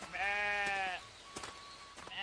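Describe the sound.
Sheep bleat as a shepherd leads his flock: one loud, long, wavering bleat, a quieter stretch, then another bleat starting at the end.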